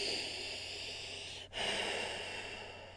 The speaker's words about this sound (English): Let's take a deep cleansing breath in through the nose and out through the mouth.